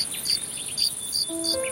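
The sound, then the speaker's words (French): Cicadas sing in summer, a shrill, steady high-pitched buzz with repeated pulsing chirps on top, moderately faint and with no voices. “Les cigales ne vivent qu'un été à l'air libre.”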